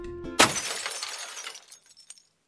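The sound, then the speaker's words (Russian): Sturdy glass being smashed: a faint tone, then one loud crash, followed by tinkling shards that scatter and fade over about two seconds. “Между прочим, чтобы расколотить такое стекло, требуется недюжинная сила.”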